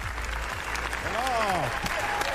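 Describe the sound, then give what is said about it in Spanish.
Sustained applause at the Cannes Film Festival, a long standing ovation for a new film's premiere. Dense, steady clapping runs loud throughout, with a few voices or cheers rising briefly above it midway. “Y ahora vamos a aplaudir.”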